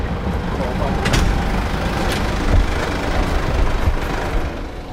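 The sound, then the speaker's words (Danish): A stonemason's car pulls away carrying a gravestone: a steady, loud engine rumble with continuous road noise that holds fairly even throughout. “Og det var altså lyden af Carl Edvard Nielsens grav, som blev ført væk.”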